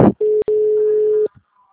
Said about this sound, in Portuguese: Pode pressionar porque senão agora o número está ocupado.